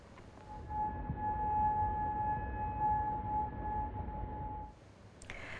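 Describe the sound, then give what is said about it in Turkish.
An air raid siren in Bahrain holds a steady, sustained tone over a low rumbling background for about four seconds before cutting off. “Bahreyn'de ise siren sesleri duyuldu.”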